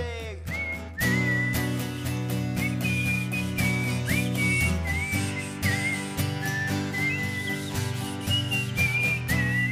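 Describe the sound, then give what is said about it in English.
Two people whistle a tune together at a live show in a sports bar, wavering high notes sliding between pitches over a steady low backing drone throughout. “I'm not a very good whistle holder, but I'm going to try. Here we go. Oh, wait, you're going to whistle? Yeah, I'm going to try and whistle with you.”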